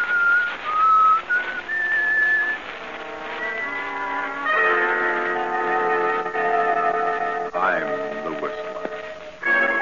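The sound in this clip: The whistled theme of The Whistler, a clear solo melody of long held notes that is then joined by sustained instrumental chords, with a brief speaking voice near the end.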